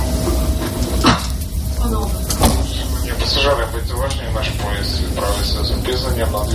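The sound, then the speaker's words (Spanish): Public-address announcement aboard a train about to cross the Ukrainian border: a voice speaks steadily through the speaker system over a low, continuous rumble of carriage noise, with a couple of sharp knocks along the way. “Un silencio que se interrumpe con la megafonía.”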